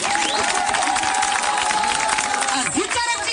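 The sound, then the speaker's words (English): A crowd at a ceremony applauds and cheers, with sustained clapping mixed with cheers and a steady whistle-like tone. A voice talks over the noise near the end. “Can you give me a round of applause?”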